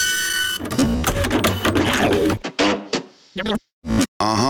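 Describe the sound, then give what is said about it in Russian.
Mechanical printer whirring and clattering in a jingle about a 4D printer: a loud, rhythmic run of printing noise, followed by brief choppy voice sounds. “Отпечатано на 4D принтере.”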